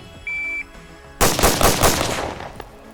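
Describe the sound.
Pistol shots of 5.7 rounds fired at a target at a shooting range, a fast string of loud sharp cracks after a short steady electronic beep and a pause.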